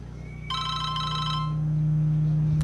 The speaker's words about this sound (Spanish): en este momento nos está entrando una llamada